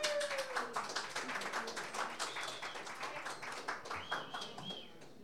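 Scattered applause greets a guest musician at a small show. The claps are sparse and fairly faint, and they fade toward the end.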